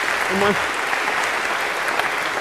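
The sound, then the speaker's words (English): An audience in a computer science lecture hall applauds a volunteer who has just helped on stage. A brief voice sounds near the start, then dense, even clapping runs to the end. “A big round of applause for our volunteer here.”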